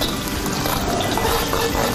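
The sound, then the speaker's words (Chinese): Scallion, ginger and garlic fry in hot oil, a mix of salad oil, rapeseed oil and a little lard. A loud, steady, dense sizzling hiss with fine crackle runs throughout without a break. “下入色拉油、菜籽油和少量猪油，奠定醇香的底味。再把葱姜蒜爆香”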